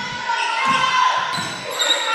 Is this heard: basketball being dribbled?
yes